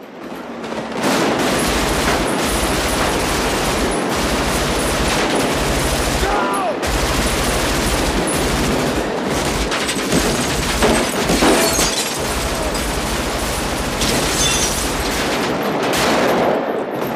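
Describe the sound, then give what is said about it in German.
Assault rifle gunfire fills a wild street battle between police and robbers at a getaway car, a dense, loud, nearly unbroken stream of rapid shots and bursts that runs for the whole seventeen seconds with sharp cracks scattered throughout. “Also die schießen da alles zusammen. Also die haben jetzt auch keine Pistolen dabei, sondern die laufen dann schon alle mit Sturmgewehren durch die.”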